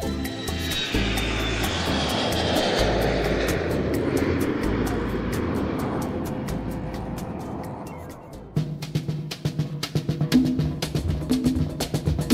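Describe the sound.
An airplane takes off with a broad, steady engine roar that gradually thins and fades, while a regular rhythmic pulsing runs through it and stands out alone toward the end.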